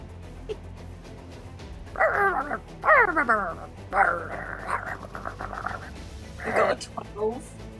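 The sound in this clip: A chihuahua barks among a pack of dogs, giving high yips, short barks and whimpers in several bursts over a low, steady background.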